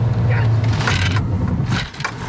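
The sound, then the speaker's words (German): Car braking hard during a driving safety training for seniors, a loud, steady road rumble with noisy low engine tone that dips toward the end. “hat inzwischen beschleunigt und tritt nun auf die Bremse. Allerdings noch etwas zu zaghaft. Aber der zweite Versuch sitzt.”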